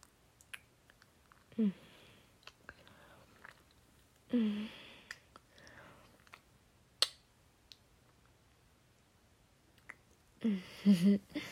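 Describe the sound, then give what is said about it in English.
Wet kissing and mouth sounds in an intimate, close setting: three main bursts of smacking, squishy lip noise, with scattered small clicks and quiet pauses between. “Come here and give me a kiss.”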